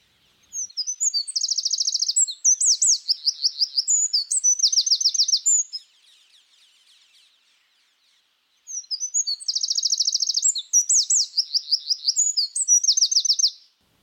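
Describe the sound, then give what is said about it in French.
Eurasian wren singing a simple, repetitive song: two bursts of high, rapid, ringing trills and chattering notes, each lasting around five seconds and separated by a short pause, clear and alone. “chant simple et répétitif du troglodyte mignon”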